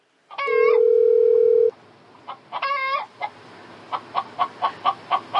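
Chicken clucking and squawking, opening with two bursts of harsh calls, the first over a steady electronic tone, then closing with a quick, evenly spaced run of short clucks that grows slightly louder.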